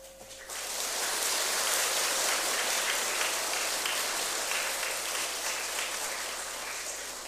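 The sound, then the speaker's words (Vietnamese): Sustained applause from a large gathering at a Buddhist ceremony welcoming over 450 new followers. The dense clapping swells quickly at the start, holds steady, then eases slightly toward the end. “hãy dành một tràng vỗ tay thật lớn”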